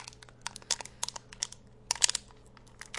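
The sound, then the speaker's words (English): Crisp crinkling and crackling of plastic wrapping peeled off a twist-top Mega Energy drink, heard as a series of sharp, faint bursts that cluster most densely around the middle, with no talk. “First, we take off the top lid. Then we peel away the plastic wrapping as such.”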